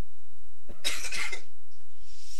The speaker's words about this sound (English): I have to cough.